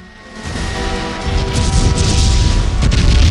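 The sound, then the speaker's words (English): Napalm bombs released from a low-flying jet explode across a tract of jungle in a deep, loud rumbling roar that swells steadily and keeps building without pause. “Turner flies his jet in low. He releases the payload of napalm bombs, and they explode in a tract of jungle.”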